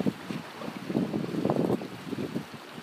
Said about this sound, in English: Ah, Jesus, cold out today. It was fine until the wind started blowing.